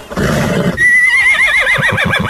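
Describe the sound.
A horse neighs while being saddled, cinched and bridled with a bit. A loud, long whinny wavers rapidly up and down and trails off, after a burst of rough noise at the start.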